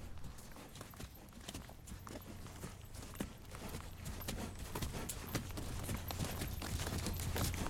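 Horse hooves clip-clop in a steady stream of many rhythmic hoofbeats, faint at first and growing slightly louder, over a low hum.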